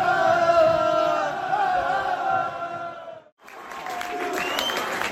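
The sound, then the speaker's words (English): Football fans, the Amber Army, cheer and sing loudly at kick-off, a sustained roar of crowd voices that dips briefly near the end before surging again. “So off we go, ready to kick off. The Amber Army in proper loud voices here.”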